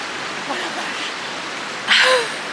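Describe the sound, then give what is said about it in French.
Water as someone goes for a swim: a soft, steady hiss of moving water, then one brief, louder splash near the end. “Allez, je vais me baigner tant qu'il y a encore de l'eau.”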